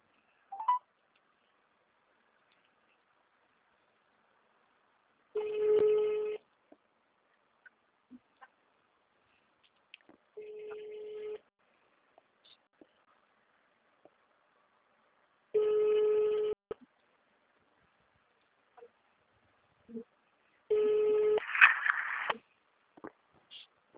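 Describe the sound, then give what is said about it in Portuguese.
An outgoing call to city hall rings out as four evenly spaced ringback tones, each a steady electronic buzz about a second long, separated by roughly five seconds of near silence. “espera aí que agora eu vou ligar lá na prefeitura.”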